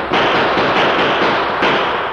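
Gunfire from horsemen at a stagecoach holdup on a trail, a dense, harsh burst of cracks that runs together almost without pause and stays loud throughout.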